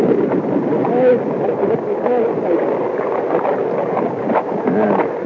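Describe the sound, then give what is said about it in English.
Water rushing and gurgling at the waterline of a sailing boat under sail between Caribbean islands near Dominica, a steady continuous wash against the hull with voices talking over it. “Isn't that a great sound? This is recorded. I dropped the mic down near the waterline, and this was recorded while we were sailing between Dominica, or Dominica”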